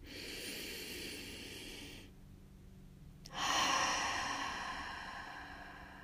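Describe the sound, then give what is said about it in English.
A deep breath drawn in as a long, soft, airy hiss, then a short silence, followed by a louder, longer rush of breath that slowly fades. No talking. “Take a deep breath in.”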